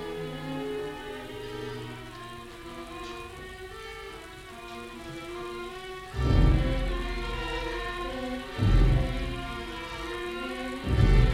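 Rain falls steadily on a street at night, a dense even hiss of drops with a few louder, deeper surges breaking through the wash.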